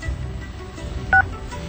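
A single short two-tone keypad beep as a telephone number is dialed. It sounds alone and clearly above a low, muffled background hum.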